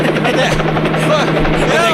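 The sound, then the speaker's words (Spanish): Helicopter rotor drone, a loud steady throbbing hum that stays constant for the whole stretch, with voices audible over it. “¡Bájate en helicóptero, hombre! ¡Bájate de ahí, hombre!”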